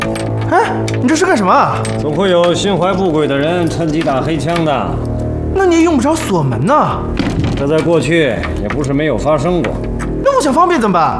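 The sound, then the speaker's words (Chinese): Keys jangle and a lock clunks shut as someone locks a door, with the metallic rattling and a dull thunk partly buried under continuous talking. “那你也用不着锁门呐。”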